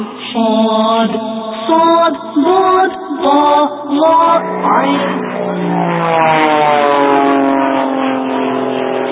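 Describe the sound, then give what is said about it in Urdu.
A green airplane approaches with a loud, buzzing engine drone that pulses in short bursts at first and then settles into a steady, continuous hum, with no talk. “اب ایک اور پیارا سا جہاز آ رہا ہے”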